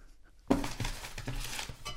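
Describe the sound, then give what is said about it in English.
A pedal bin lid springs up as its foot pedal is pressed down, giving a sudden sharp clink followed by a brief clattering rattle that fades into a low rustling noise. “If I stand on the pedal here with my hind legs and press down, easy does it. Up goes the lid.”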